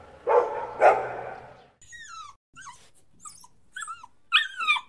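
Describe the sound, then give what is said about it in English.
A dog gives two loud, rough barks, then a run of high, thin whimpers and yips that rise and fall in short bursts, ending with a sharper yelp. “This is a sample from the Ultimate Real World Dog Sound Effects Library.”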